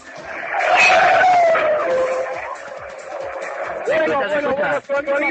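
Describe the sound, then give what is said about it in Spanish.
A racing car engine accelerates past in a loud, high whine that sweeps downward in pitch. A second engine note rises near the end, and a commentator talks over it. “Bueno, escucha. Bueno, bueno, bueno, sonido acelerador, vuelve a pasar.”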